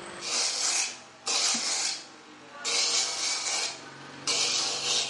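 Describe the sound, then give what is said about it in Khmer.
Coconut meat being scraped from a halved coconut with a hand scraper: four long, loud, hissy rasping strokes separated by short pauses. “គេពុះដូងជា2ហើយគេយកខ្នោះមកកោសយកសាច់ដូង”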